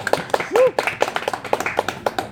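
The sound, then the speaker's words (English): An audience claps in quick, uneven bursts of sharp hand claps that run throughout, with a brief voice sound mixed in near the start. “You can clap for that.”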